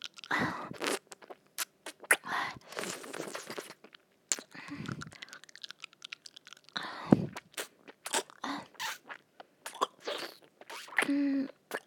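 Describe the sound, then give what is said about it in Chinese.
Crunchy chicken being bitten and chewed: many sharp, crackling crunches come in irregular bursts separated by short pauses, close and distinct, with no talking. “吃鸡，不让我吃鸡吗？”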